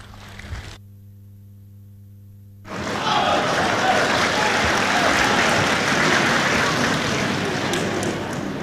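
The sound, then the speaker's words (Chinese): Audience applause for a pair of crosstalk comedians at a Beijing comedy show. After a brief hush, clapping swells in and holds at a moderate, steady level to the end. “谢谢谢谢谢谢现场所有热情的观众，谢谢您这么稀稀拉拉的掌声，谢谢大家。”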